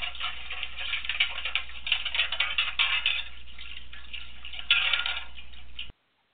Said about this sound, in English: the noise made by washing metal plates in a metal wash tub on the stove, then you know it's time for a little housekeeping